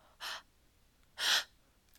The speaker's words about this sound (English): Would you gasp for me? Open mouth gasps.